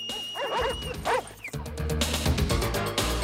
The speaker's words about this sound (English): while the dogs are distracted, barking away at a different section of the wall.